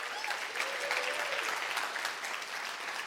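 Applause from a church audience welcoming its joining campuses, steady and dense clapping that holds at an even level throughout.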